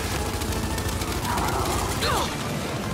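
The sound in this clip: Rapid gunfire rattles through a squad-based video game battle, dense continuous bursts of shots with mechanical clatter, loud and unbroken for the whole stretch.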